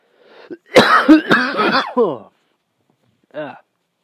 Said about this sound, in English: you might have heard me taking a couple hits. I'm about to right now. Goddamn dry throat.